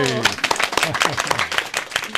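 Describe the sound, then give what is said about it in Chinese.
Applause for a group of secondary-school students joining a programme: a quick, uneven patter of many claps runs throughout, with a voice talking over the first moments. “我哋俾啲掌声你啊！”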